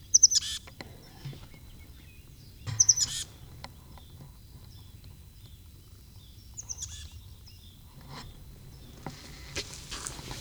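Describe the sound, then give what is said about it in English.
A bird that has flown into a barn gives a few short, high chirps spaced apart over a faint low background rumble. “Bird flew into the barn.”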